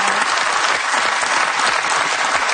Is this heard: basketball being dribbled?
no